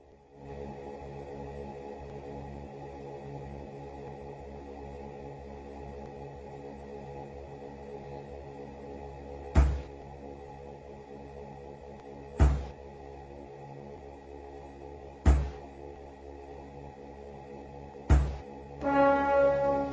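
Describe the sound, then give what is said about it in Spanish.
Music from the Commodore Amiga video game Moonstone: A Hard Day's Knight: a quiet, steady droning synth texture punctuated by four heavy, bell-like booms at evenly spaced intervals. “Y Moonstone, amigos, que suena de esta manera.”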